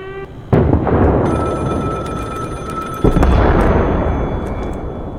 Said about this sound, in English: Сбрасываем бомбы на Ростов.